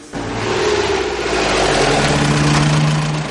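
The engine of a van stopped at the curb idles with a steady mid-pitched rumble and whir, starting abruptly and holding an even level throughout.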